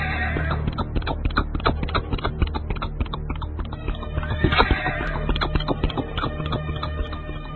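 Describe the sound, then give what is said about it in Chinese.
Horse hooves gallop on a stone-slab street in a dense, rapid, steady clatter of many sharp hoofbeats, with a horse's whinny rising briefly partway through. “马蹄踏在石板大街上，那真是如密雨敲窗，战鼓雷鸣。”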